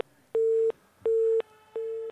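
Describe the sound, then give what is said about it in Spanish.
Telephone busy tone after a call was cut off during a live phone-in: three steady, mid-pitched beeps of equal length, evenly spaced with short silent gaps, loud and alone with no voices. “¿Qué ha pasado, señor técnico? ¿Se nos ha cortado la llamada?”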